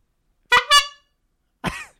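A horn sounds three short, loud honks: two in quick succession, then a third after a pause of about a second.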